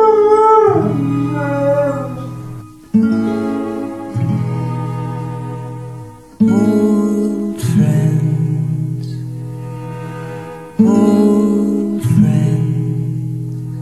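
Dogs howling: a series of loud, long, sustained tonal howls with wavering pitch, coming in several repeated phrases with no speech.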